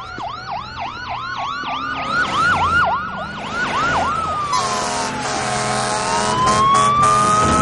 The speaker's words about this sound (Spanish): Coches patrulla y un camión de bomberos pasan rápidos.